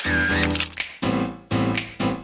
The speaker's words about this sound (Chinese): 嚓咔嚓，美好的事物就用相机拍下来，